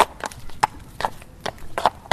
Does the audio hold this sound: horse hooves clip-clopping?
yes